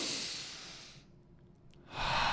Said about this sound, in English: 1 more breath in. Now hold.